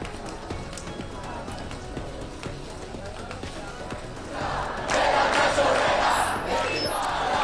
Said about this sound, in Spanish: Estas imágenes corresponden ya a la marcha que recorrió anoche el centro de la capital en protesta por la caída de los dos decretos de vivienda.